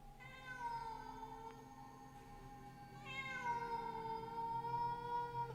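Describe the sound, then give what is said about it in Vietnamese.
A black cat yowls eerily at night in two long, drawn-out wailing cries, the second louder and sharper than the first, both holding a high, steady, harmonic tone. “Con mèo trong khung ảnh cất lên âm thanh nghe ghê rợn trong đêm.”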